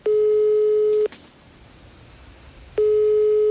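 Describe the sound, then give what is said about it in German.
Ringback tone of a telephone call being placed in Germany: two steady, single-pitch tones, each about a second long, separated by a quiet pause of under two seconds. “Und den werde ich jetzt einfach mal anrufen.”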